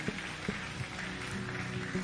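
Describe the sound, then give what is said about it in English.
Church audience clapping: a faint, continuous wash of many hands with a few sharper accents scattered through it. “Keep clapping. Keep clapping. Keep clapping. Keep clapping.”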